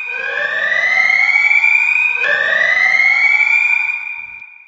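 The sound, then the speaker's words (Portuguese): An alarm sound effect used as a spoiler warning: two loud, back-to-back wailing siren sweeps, each rising in pitch, with the second trailing off at the end. “sou o alarme aí. Alerta de spoiler Ouça por sua conta e risco.”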